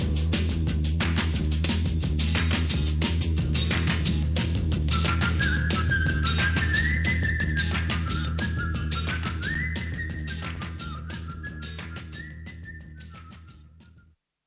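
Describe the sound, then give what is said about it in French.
A person whistles a clear, high melody over steady instrumental music. The whistled phrases glide up and down, and the music slowly fades out toward the end. “je m'en vais en sifflant”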